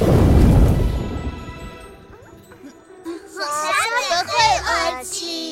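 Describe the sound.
A loud, deep roll of thunder from an approaching storm rumbles at the start and fades away, then high, wavering vocal sounds rise and fall over a low background.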